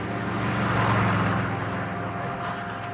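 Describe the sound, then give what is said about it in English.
A car drives past on a road: a broad, steady roar of engine and tyres swells slightly, then eases off. “Helen tries to flag down an approaching vehicle. It passes by.”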